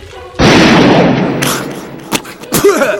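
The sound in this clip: A single sudden gunshot bursts out loud and harsh, its noisy tail sustaining for about a second before fading, followed by a few brief sharp sounds and a voice near the end.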